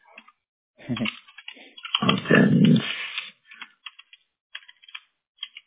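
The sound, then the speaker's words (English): Typing on a computer keyboard: a louder, rough burst of sound early on, then quick, irregular keyboard clicks scattered through the rest. “I need to type better.”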